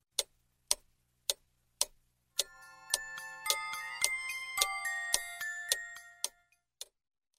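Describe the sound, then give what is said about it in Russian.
A large clock ticks four times at a steady, even pace, then a bright tinkling chime melody starts. The chimes ring in overlapping notes over the continuing ticks and fade out near the end. “Мышка подошла к большим часам, и они заиграли чуть-чуть громче.”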